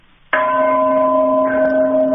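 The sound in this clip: A bell is struck once, ringing out a clear, loud, sustained tone that holds its pitch and barely fades over about two seconds.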